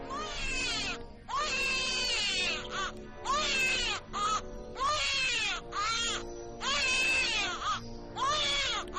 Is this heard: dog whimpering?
no

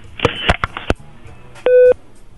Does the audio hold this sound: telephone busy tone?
yes

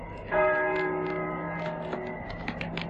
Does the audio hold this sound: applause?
no

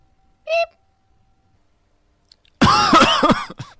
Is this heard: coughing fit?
yes

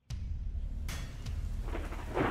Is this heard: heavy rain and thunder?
yes

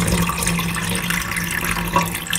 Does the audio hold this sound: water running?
yes

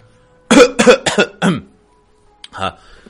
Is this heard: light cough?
yes

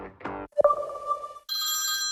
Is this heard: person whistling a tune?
no

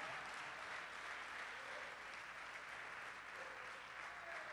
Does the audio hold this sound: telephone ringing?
no

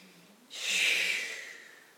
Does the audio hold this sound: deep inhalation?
yes

